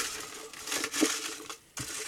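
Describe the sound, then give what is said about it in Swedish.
Paper slips poured into a jar and mixed for a prize draw: a steady rustling, crinkling clatter that swells and continues for about two seconds, with a brief pause before a final burst of shuffling. “Så nu häller vi ner de som har alla rätt i en burk med de som inte hade det och blandar.”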